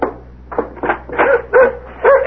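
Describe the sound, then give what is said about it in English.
A dog barks at a door it wants to come through, letting out a series of short, sharp, mid-pitched barks and yips in an uneven rhythm, fairly loud and without voices. “He's a nice dog.”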